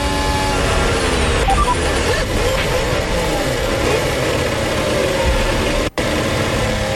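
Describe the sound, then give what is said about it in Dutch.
Onboard sound of a Formula 1 racing car engine, a continuous, loud, steady drone that runs the whole way through and drops out for a brief instant near the end. “Vanuit de auto van Pierre Gasly.”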